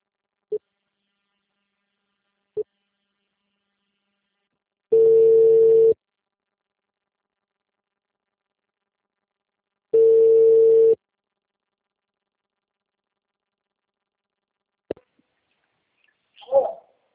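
Two long, steady telephone ringback tones sound about five seconds apart while a call connects, each lasting about a second. A couple of faint clicks come before them, and a short burst of noise follows at the end.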